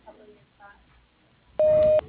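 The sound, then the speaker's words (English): A voicemail tone beep sounds on a telephone line: one loud, steady, mid-pitched tone of under half a second that comes after a stretch of faint, muffled sound. “At the tone, please leave your name and phone number, and he'll return your call as soon as possible.”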